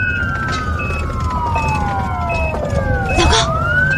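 An ambulance siren wails over steady traffic noise. Long descending tones overlap with a pulsing higher beep, and a sharp upward sweep comes near the end. The sound stays loud throughout.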